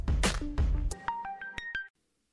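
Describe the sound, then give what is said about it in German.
Electronic telephone tones sound while a call is being placed: a few short, clear beeps in a quick series after a louder, denser opening burst. “Wir rufen jetzt den Baumgart an. ne? Der Anruf der Woche.”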